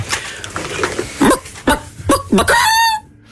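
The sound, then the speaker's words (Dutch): A person imitates a hen's egg-laying cackle, with a handful of sharp, throaty clucks that build into a longer, higher drawn-out squawk at the end. “dan moet ik eerst even mijn keel in de kippenstand krijgen.”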